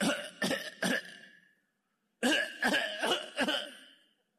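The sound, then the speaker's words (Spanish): Harsh coughing from a man who has been coughing for a week: a short burst of loud coughs, a pause, then a second burst of several more, with no talk. “Así toso yo. Ya cree que es normal que la gente tosa.”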